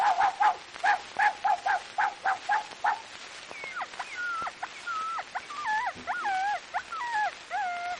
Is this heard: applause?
no